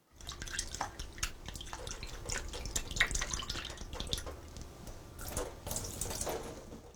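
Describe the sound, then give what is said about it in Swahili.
Tap water runs in a steady, hissing splash as dried raisins are washed before draining in a strainer. Brighter drips and spatters sit over the flow, and the sound stays fairly quiet throughout. “sasa osha zabibu kavu na uzikaushe kwa kutumia chujio.”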